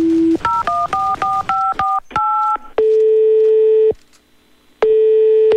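A telephone number is dialed as a rapid series of short dual-pitch keypad tones. Two long single-pitch ringing tones follow, separated by a pause of silence.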